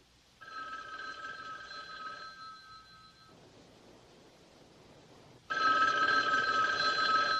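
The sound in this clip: A telephone rings unanswered: two long ring bursts separated by a quiet gap of faint hiss, the second ring louder than the first.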